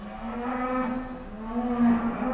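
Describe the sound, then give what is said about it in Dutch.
Cows mooing at a farm by a barn, one loud, low, drawn-out moo holding a steady tone with rich harmonics throughout. “je hoort de koeien al loeien”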